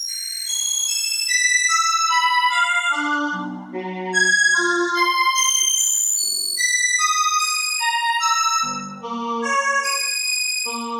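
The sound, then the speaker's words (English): Synthetic electronic tones turn the brightness variations of the variable binary star Gamma Cassiopeiae into sound. Clean notes of many pitches, mostly high, step and overlap in a continuous, steadily loud sequence. “Gamma Cassiopeia is a variable binary star variable because its brightness varies, the tones represent that variability.”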